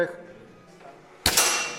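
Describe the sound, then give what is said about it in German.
A rifle fires a single sharp, loud shot after being loaded, closed and aimed during school shooting training in Poland. A quiet stretch comes before the crack, which rings out briefly and decays. “Ich spanne ihn und jetzt lege ich die Munition hier in das Loch hinein. Ja? Ich schließe es und jetzt schaue ich durch das Löchlein, ziele, halte den Atem an und der Schuss fällt.”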